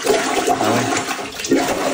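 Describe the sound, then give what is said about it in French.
Toilet bowl water surging back up during heavy rain, a constant loud gurgling and sloshing rush with brief bubbling swells, heard alone without talk. “Grosse pluie, là, ça déborde. Les gens filment leur bol. Écoutez bien le son, c'est impressionnant. C'est le retour d'eau.”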